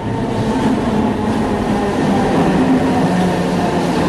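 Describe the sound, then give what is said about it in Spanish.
A Madrid Metro subway train in motion gives a loud, steady rumble of wheels and running gear, a dense, unbroken roar that holds at an even level throughout with no voices. “Vamos a Metro Madrid.”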